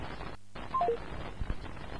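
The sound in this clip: A telephone call cutting off mid-song: a brief moment of dead line, then three quick, faint electronic beeps stepping down in pitch over low line hiss.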